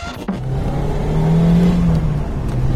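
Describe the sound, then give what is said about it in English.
Engine drone of a small Lotus car fitted with a Toyota 1.8-litre supercharged VVT-i engine mounted just behind the occupants, driving on open road. A loud, steady, continuous hum holds throughout with no voices. “You can probably hear from the sound of the little Lotus, or perhaps I should say Toyota 1.8-litre supercharged VVT-i engine just behind our ears, that we found a bit of open road”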